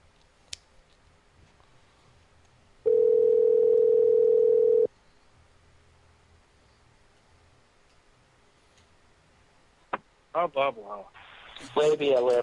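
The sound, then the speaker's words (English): Out-of-order telephone tone on a coconut phone: a single steady, mid-pitched tone lasting about two seconds between faint clicks, and people then talk near the end. “Please try your call later. 06. What? I'd try that again. Coconut phone is out of order.”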